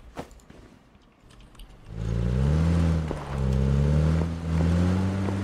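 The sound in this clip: A car engine in the PUBG video game starts up into a loud, droning rumble that revs and swells, dipping briefly a couple of times before climbing again.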